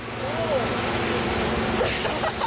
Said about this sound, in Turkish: Bu sizin suyunuz. Hadi. Bu harika. Evet, su çıktı.